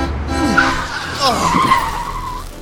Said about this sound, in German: Der Mercedes beschleunigt auch. Und sie holen immer mehr auf.